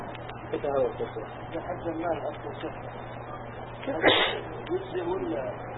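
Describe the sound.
A single sharp sneeze breaks out in a lecture hall partway through a man's ongoing speech, then his talking resumes.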